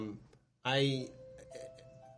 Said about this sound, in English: That's my doorbell.